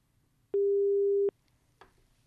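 A telephone busy tone after the caller hangs up, heard as a single steady mid-pitched beep lasting under a second, then a faint brief noise on an otherwise quiet line.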